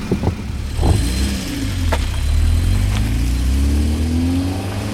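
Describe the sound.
A car engine revs loudly as the car drives off, the steady engine drone rising in pitch over the last few seconds, with a few clunks near the start.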